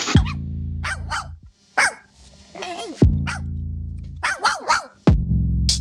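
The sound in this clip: A puppy barks in a rapid string of sharp, high yaps, several clustered bursts over deep, sustained bass booms that recur every few seconds.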